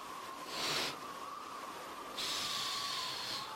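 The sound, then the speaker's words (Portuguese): Breathy blowing of air meant to push clouds across a savanna sky: two hissing puffs, the second longer than the first, over a faint, steady tone. “As duas juntas, soprando e soprando, foram pouco a pouco enchendo de nuvens o céu da savana.”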